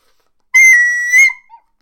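A person whistles in an animated film scene: a loud, clear, high note held for about half a second, then a brief accented burst and a short faint chirp, heard alone.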